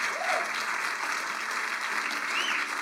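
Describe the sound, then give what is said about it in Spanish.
An audience claps together during a church service, a dense and steady applause that stays at an even loudness for the whole stretch. “You've got a shout of praise. Dale a Dios un fuerte aplauso.”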